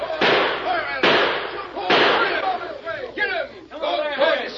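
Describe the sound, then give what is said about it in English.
Gunshots in a western gunfight: three sharp, loud bangs about a second apart, with shouting voices carrying on over and after them. “Fire at him! Shoot! Shoot!”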